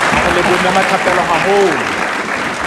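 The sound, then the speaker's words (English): An audience applauds an a cappella group with loud, sustained clapping. A voice speaks over the applause. “Come on, give the capella a big round of”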